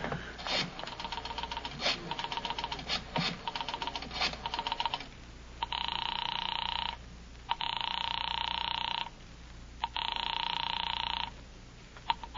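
A telephone bell rings three long, evenly spaced times after a run of brisk typewriter-like key clatter, each ring a loud, steady metallic trill separated by short pauses.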